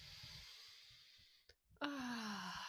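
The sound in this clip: A deep breath is drawn in and let out. A soft, airy rush is followed by a voiced sigh that falls in pitch.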